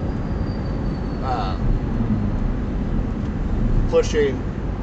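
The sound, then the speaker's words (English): Steady low road rumble from a car being driven between towns, constant throughout, with a couple of faint voice fragments over it. “I'm so very sorry. I sound distracted. I'm driving right now”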